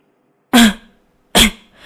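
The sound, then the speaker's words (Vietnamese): Two dry coughs, each a sharp, loud burst that quickly fades. The two are evenly spaced, with silence before, between and after them. “Lại Nhải ho khan hai tiếng.”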